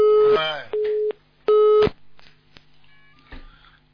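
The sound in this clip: A telephone busy tone sounds after a call is cut off: three pulsed beeps at a steady mid pitch and even loudness, followed by quieter, scattered sounds.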